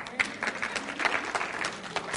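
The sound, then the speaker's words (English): Light, scattered audience applause for a participant at a talk, a quiet patter of claps that continues throughout. “Thank you. That's all I needed. Give him a big hand clap.”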